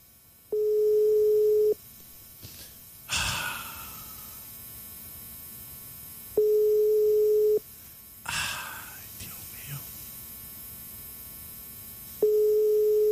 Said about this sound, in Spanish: Voy a hacer una llamada.